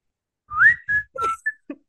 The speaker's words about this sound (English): I'm glad you could whistle because I can't whistle and I was hoping you would step up.